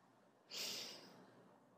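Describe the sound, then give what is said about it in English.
A single deep breath drawn during a guided relaxation exercise: a loud, airy hiss that swells suddenly, then tapers into a softer breathy tail, with no talk over it. “And inhale deeply.”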